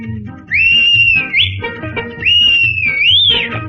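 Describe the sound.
A whistle blown as for a train: two long, loud blasts separated by a short gap, each held at a steady pitch and bending upward near its end, over a low background.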